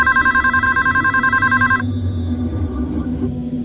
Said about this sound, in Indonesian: Sampai telepon di rumahku berdering.